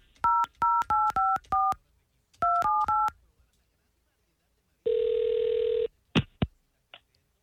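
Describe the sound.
Touch-tone phone dialing for a call: a rapid string of electronic keypad beeps in two bursts, then one long steady ringing tone, followed by a few short clicks.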